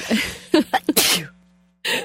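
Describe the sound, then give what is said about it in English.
A sneeze: a few short, sharp breathy catches build into one loud, noisy burst that trails off. A brief quiet gap follows, then another short burst of noise at the end. “It's kind of making me want to sneeze. I haven't even got a cold and I want to sneeze.”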